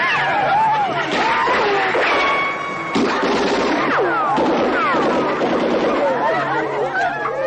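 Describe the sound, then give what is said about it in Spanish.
Gunshots ring out over a dense, continuous din of chaotic noise, with a few sharp cracks among sweeping, raised voice-like cries throughout. “¿A quién disparan?”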